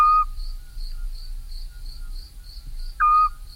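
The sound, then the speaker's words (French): Eurasian scops owl calling at night: two short, clear whistled notes about three seconds apart, over steady, rhythmic chirping of insects such as crickets. “le petit duc Scops, c'est un petit rapace qu'on ne verra jamais. Et on l'entend le soir après, vers 10h du soir, la nuit”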